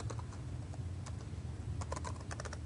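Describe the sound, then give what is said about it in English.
Faint typing on a computer keyboard as a code snippet is entered, a run of many quick, soft, irregular key clicks that cluster more densely near the end, with no talking. “I'm using a snippet for this. I type prop, then tab twice, and it fills that in for me.”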